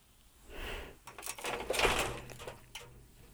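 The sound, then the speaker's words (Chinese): A door being closed makes a brief scrape followed by a few knocks and rattles, moderately loud, with no talk. “别怕，把门关上是为了更好的聊天。”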